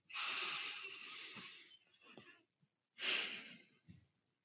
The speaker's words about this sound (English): How do you feel after taking one breath?